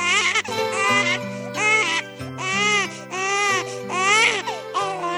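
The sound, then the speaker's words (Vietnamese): An infant cries in long, loud, repeated wails with a high, strained pitch, each burst separated by short gasping breaks. “con khóc”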